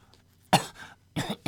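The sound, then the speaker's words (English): A man coughs a couple of times, each cough a sharp, harsh burst, with a short quiet gap between them. “The other coughed and, rising, walked slowly to the window.”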